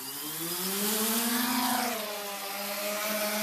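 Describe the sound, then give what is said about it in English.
Drone motors spin up for takeoff with a buzzing, multi-tone whine that climbs in pitch, dips slightly and then holds at a steady level. “So machine's armed up, the motors are spinning. We're just going to take off now, so a bit of throttle.”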